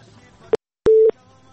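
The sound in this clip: A telephone tone sounds after a call is cut off: a brief sharp blip, then a single steady beep of even pitch lasting about a quarter second, loud against faint background hiss.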